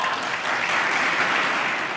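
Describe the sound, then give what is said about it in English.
Members of Congress applaud in a played video, a dense, continuous burst of clapping from a large group that holds steady for a couple of seconds. “If you were watching the video, you could tell that, you know, Democratic members of Congress were probably more prone to applauding in that latter comment, and more Republican members were applauding in that”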